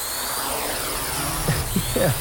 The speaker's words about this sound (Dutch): klinkt als een heggeschaar of een hele grote bromvlieg. Of een drone. Of een drone, inderdaad, dat was het.